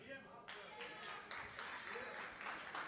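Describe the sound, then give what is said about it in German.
A club audience claps to cast a vote at a comedy show. The applause starts abruptly, then swells louder partway through, with voices mixed in. “Wer ist für Bär? Bitte mal klatschen.”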